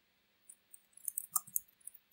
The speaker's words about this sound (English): And if I click that link, it'll take me to the new user activation.